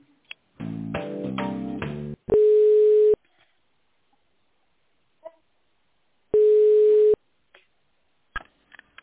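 Telephone line tones play while a business call is being transferred: two long, steady beeps a few seconds apart, separated by near silence with faint clicks.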